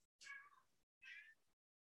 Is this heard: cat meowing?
yes

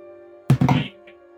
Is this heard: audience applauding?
no

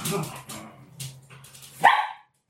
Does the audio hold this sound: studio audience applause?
no

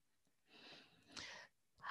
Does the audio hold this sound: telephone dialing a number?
no

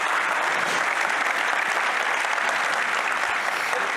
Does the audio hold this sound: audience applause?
yes

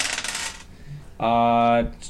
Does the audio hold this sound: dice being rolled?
yes

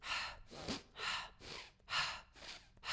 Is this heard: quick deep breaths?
yes

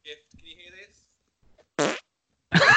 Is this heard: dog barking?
no

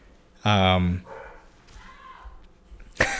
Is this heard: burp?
no

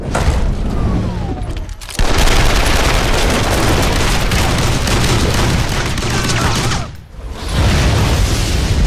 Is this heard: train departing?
no

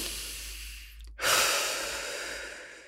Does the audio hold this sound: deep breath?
yes

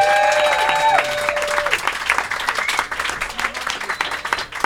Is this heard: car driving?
no

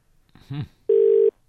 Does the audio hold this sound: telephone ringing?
yes

